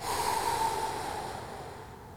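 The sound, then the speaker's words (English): A slow, deep breath from a four-count breathing exercise: a single long, airy breath that starts fairly strong and fades gradually into quiet, with no talking. “the four part breath, where you breathe in for four like this, hold for four, and then exhale for four”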